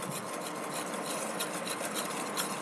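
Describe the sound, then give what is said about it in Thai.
Stirring titanium dioxide into white oil, a steady, soft, grainy scraping and rubbing that runs without a break and without voices. “นี่ก็จะเป็นน้ำมันสีขาวแล้วนะคะใส่ตัวไทเทเนียมแล้วก็คนให้กระจายตัวกันดี”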